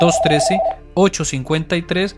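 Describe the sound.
A telephone rings with an incoming call, a warbling electronic trill heard under a talking voice for under a second before speech carries on alone.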